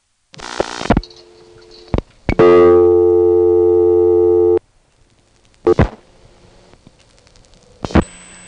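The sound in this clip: Telephone line tones during a payphone call: a short buzzy burst and a couple of clicks, then a loud steady tone holding about two seconds, followed by silence and two more brief bursts.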